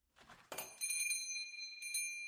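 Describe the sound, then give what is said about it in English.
A door chime rings at a shop entrance, giving bright, bell-like tones that sustain and ring on, with a few further strikes layered over the lingering tone. “jumped when the door chime rang.”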